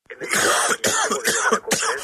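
Harsh, raspy coughing from a man who sounds ill, with trouble breathing. A few loud hacking bursts follow in quick succession with brief gaps between them, and there is no talk.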